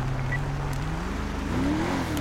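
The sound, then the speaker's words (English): Car engine accelerating as a vehicle drives off during a traffic pursuit in a police video game, a continuous whirring drone whose pitch climbs toward the end, with no talk over it. “10-4, he's trying to drive off.”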